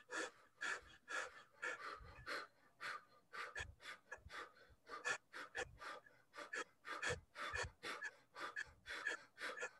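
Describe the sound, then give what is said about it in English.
Rapid fire-breath breathing exercise: many quick, forceful nasal exhales in a steady, driving rhythm, each a sharp hiss of air, with no talking. “This is a fire breath. 20 seconds.”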